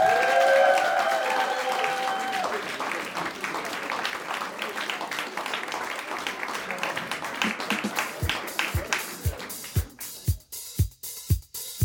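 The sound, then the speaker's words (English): Applause greets an employee returning to work during a workplace meeting. Dense clapping gradually thins into scattered individual claps, and a few loud, separate claps close the stretch. “We'll give him a big hand.”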